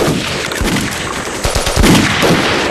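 Machine gun fire rattles out in loud rapid bursts over a dense wash of noise, with several sharp shots standing out.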